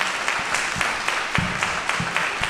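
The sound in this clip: An audience applauds in a historic auditorium, an even, continuous wash of clapping with a few sharper individual claps standing out.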